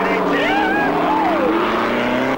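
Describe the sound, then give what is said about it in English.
Roaring race car engines as three racers tear out onto an open highway, a loud continuous drone with whining tones that sweep and fall in pitch throughout. “The three racers roar out onto the open highway with Frankenstein”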